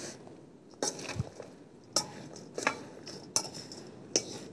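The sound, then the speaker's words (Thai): A salt mixture for the skin is stirred and mixed in a bowl. Several faint, sharp clinks and scrapes of the utensil come at irregular intervals. “เพราะเกลือมันซึมทำให้ซึมด้วยนะ แล้วก็คลุกเคล้านะคะให้ส่วนผสมเข้ากัน”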